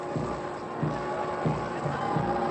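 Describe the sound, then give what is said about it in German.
A massed crowd at Potsdam on 21 March 1933 cheers in faint, rhythmic swells that repeat a few times at an even pace over steady hiss. “Das war am 21. März 1933. Ungeheure Erregung in den Massen.”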